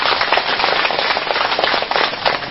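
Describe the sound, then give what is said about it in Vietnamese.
Enthusiastic applause from an audience at a Buddhist dharma talk: dense, rapid, crackling clapping held at a steady, fairly loud level throughout, with no voices. “Như sư thuyết pháp nhiều chỗ mà chưa có chỗ nào vỗ tay nhiều chỗ này.”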